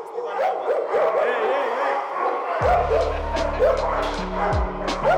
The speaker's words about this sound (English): That sound you hear? These are dogs, about 90 of them.